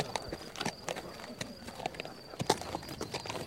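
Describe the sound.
Horse hooves clip-clop as a rider rides over toward a group, a steady series of sharp knocks of uneven loudness at a walking pace.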